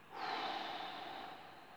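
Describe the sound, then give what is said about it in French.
A slow exhale through the mouth during a relaxation breathing exercise: a soft, steady, breathy rush that swells quickly, then tapers gently over nearly two seconds. “Je souffle par la bouche,”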